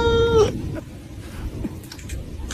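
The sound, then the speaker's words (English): A cat gives a single clear, tonal meow that falls slightly in pitch, followed by quiet background noise with faint rustling. “Ah, beautiful kitty.”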